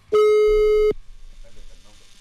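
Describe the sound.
A telephone call is placed, with a single steady buzzing line tone lasting under a second, then people talk quietly.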